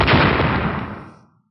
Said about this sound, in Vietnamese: Một tiếng nổ khủng bố vang lên